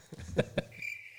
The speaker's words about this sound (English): That was the sound of the crickets in the jungle.